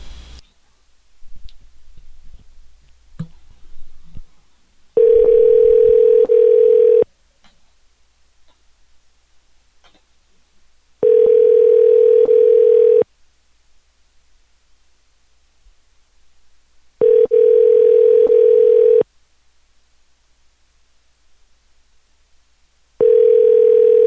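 Telephone ringing tone on a call placed just after midnight that goes to voicemail: a steady mid-pitched tone in evenly spaced two-second bursts separated by longer silences, with faint clicks before the first burst.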